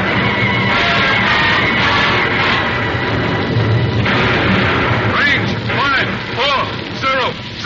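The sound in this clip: Enemy gunfire in a battle: a dense, continuous roar of heavy booming bursts that stays loud throughout, with a few whistling sweeps near the end.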